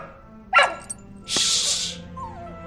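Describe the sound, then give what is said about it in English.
A dog vocalises with a short yip, then a longer, breathy bark-like burst, followed by a thin whine that trails off. No one talks. “that dog can't bark in here.”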